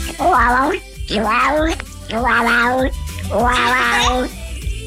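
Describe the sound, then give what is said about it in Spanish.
A cat in heat yowls in four drawn-out, wavering calls, played back from a recording. Each call is loud, rich and rises in pitch at its start, with short breaks between them. “¿Ese es un gato en celo?”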